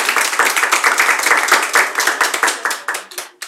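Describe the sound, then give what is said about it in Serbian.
Applause from women clapping at a tavern evening show, a dense, steady patter of many hands that thins toward the end into fewer, more separate claps. “A žene ne mogu od noktiju, znate, pa kao ono kada aplaudiraju, kao ni.”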